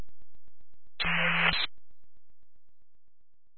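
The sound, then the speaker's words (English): A brief burst of radio static breaks in on a faint transmission: about half a second of band-limited hiss with a low hum inside it, set against quiet, regular ticking. “Viacom, Kelly Uncle 5-1, radio coming through, extremely quiet with static.”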